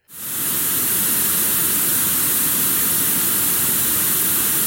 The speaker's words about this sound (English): Okay, so that's what white noise sounds like.